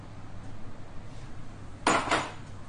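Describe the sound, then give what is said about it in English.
A brief metallic clatter as flour is sieved into a metal bowl for an apple crumble, with a couple of quick clinks of the sieve against the bowl over a faint, quiet background. “You're going to just sieve it through into this metal bowl.”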